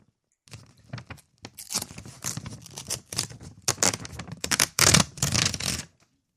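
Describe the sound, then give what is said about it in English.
A paper check is ripped apart in many short, crackling tearing bursts with brief pauses between them. “I think I just ripped it.”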